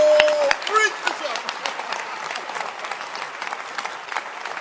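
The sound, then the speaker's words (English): A church audience claps during a service, a dense, steady wash of hand claps that continues evenly throughout, with voices mixed in and a sustained tone at the very start. “Can you clap again? Or you're too big?”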